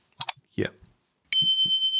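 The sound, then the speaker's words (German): A single bright notification bell dings and rings on in a clear, sustained tone. Brief speech comes before it, and a voice carries on over the ringing. “die Glocke aktivieren. Du meinst das hier, oder? Das da, ganz genau.”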